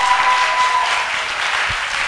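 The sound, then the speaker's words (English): An audience claps in a dense, even patter of many hands, steady throughout with no voices over it. “Oh, somebody must be clapping. Clap, clap.”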